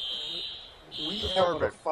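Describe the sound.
A fire alarm going off during a game-watching gathering: a steady, piercing high-pitched tone that breaks off briefly and then resumes, with people talking over it.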